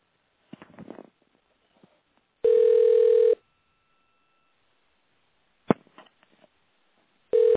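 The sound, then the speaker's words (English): A telephone call is being dialed: a few soft clicks come first, then a steady electronic tone lasting about a second, another click, and the same tone beginning again at the end. “And I'm dialing.”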